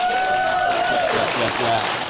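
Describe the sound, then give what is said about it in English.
Audience applause for a panel of guests at a debate event, a thick, steady spread of many hands clapping at a loud, even level throughout the short clip. “Let's get a round of applause for the panel.”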